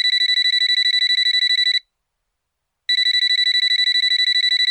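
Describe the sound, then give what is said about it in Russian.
A mobile phone rings with a bright electronic trill, rapidly pulsing, in two long bursts separated by a short silent pause. “и в этот миг зазвонил его телефон.”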